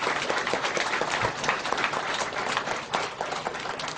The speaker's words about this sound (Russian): Давайте похлопаем, друзья.